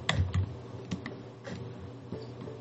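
Keys clatter on a computer keyboard as academic text is written, a quick, uneven run of faint taps.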